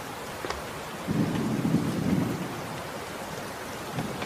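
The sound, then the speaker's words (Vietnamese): Thunder rolls low for about a second over the steady hiss of rain as a storm rises outside, after which the rain carries on alone. “Bên ngoài giông tố nổi lên.”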